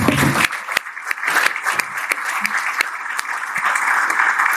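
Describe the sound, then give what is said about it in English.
An audience applauds at a rugby lunch with dense, sustained clapping across the whole stretch. It is loud and even, with sharper individual claps standing out. “please give an equal level of applause for former Ireland player Rory”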